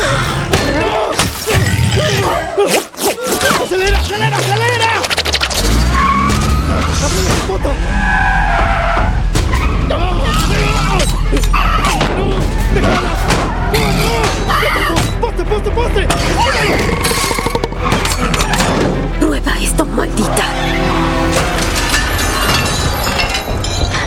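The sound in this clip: Tires screech and an engine roars as a car started without a key speeds off in reverse. Skidding and revving continue loud and long, with voices shouting over the din.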